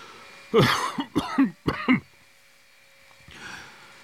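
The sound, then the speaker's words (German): Three loud coughs in quick succession, turned to the side, followed after a pause by a faint, breathy sound. “Zur Seite husten.”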